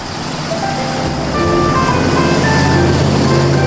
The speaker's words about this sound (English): As the station wagon rounds a corner